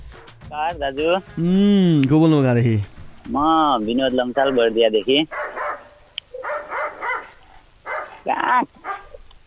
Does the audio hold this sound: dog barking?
yes